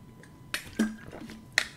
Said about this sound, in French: je vais en profiter pour boire un petit peu d'eau. Parce que, eh ben, j'ai soif.